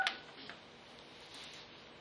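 Telephone keypad tones as star six is dialed to unmute on a teleconference line: short, faint beeps at the start, then quiet line hiss.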